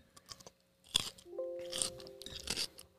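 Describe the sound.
Crunchy bites and chewing into a pickle, a few sharp, irregular crunches with wet, crackling texture between them, close and clear with no talk.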